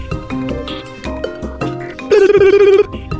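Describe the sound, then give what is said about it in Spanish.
A telephone rings once during a call, a loud, steady electronic tone lasting under a second, coming after a stretch of clattering, tonal background sound. “Puede ser una llamada a Garbanzo. ¿Puedo llamarle a alguien? Puede llamarle a alguien pero rápido.”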